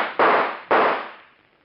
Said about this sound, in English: All right, then I'll shoot.